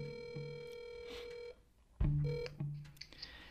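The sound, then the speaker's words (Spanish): A video call ringing tone: an electronic ring made of steady, bright tonal notes with clear overtones, repeating in a few bursts separated by short gaps. “Y voy a tratar de llamar a gente por videollamada, cosa que me parece complicado, pero vamos a ver.”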